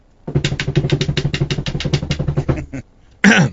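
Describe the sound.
A voice imitates a drum roll with a long run of rapid, evenly pulsing rolled syllables. After a short pause it ends with one loud, noisy burst like a closing crash.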